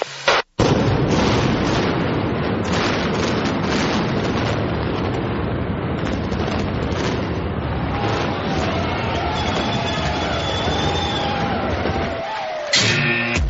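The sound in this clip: A long, roaring explosion effect in the style of the Kingdome stadium demolition, with a brief burst at the start followed by a sustained, dense rumble lasting over ten seconds before cutting off.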